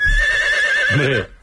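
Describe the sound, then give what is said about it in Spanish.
A horse neighs in one long, loud, high-pitched whinny that ends in a shuddering, fluttering tail before cutting off, with no voices over it. “sí señor, caballo”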